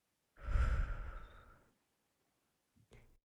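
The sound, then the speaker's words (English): A deep, deliberate breath: one long, full, breathy sigh lasting over a second, then a couple of brief, much fainter breath sounds, with no talking. “Let's take a deep breath in for that. And out.”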